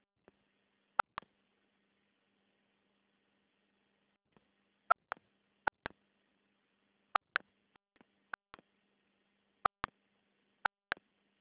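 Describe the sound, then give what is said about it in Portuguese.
Telephone keypad tones sound as a caller types a CPF number into an automated bank card line. Many short beeps come mostly in quick pairs, separated by quiet gaps, with no voices. “Olha, não encontrei esse CPF. Você precisa digitar os 11 números. Agora.”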